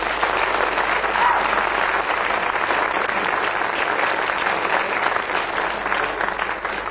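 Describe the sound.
A studio audience at a panel game applauds to welcome four panellists, with warm, continuous clapping that holds steady for about seven seconds before easing slightly.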